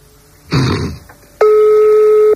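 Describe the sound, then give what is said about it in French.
A telephone tone sounds while a call is placed to a private person's number: a brief rustling burst, then a single steady, clear tone held for about one second before cutting off. “on est en train de faire un autre numéro d'un particulier, ça décroche”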